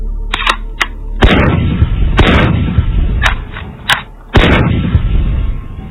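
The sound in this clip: Guns fire at an outdoor shooting range in a series of sharp, loud shots at irregular intervals. Several heavy bangs leave long ringing decays between them, and there is no talk.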